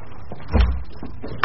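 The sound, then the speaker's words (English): A door is shut with a single dull, low thud that rises briefly above a quiet, steady background hiss. “Now that you're here, you'd better stay, if you wouldn't mind shutting the door.”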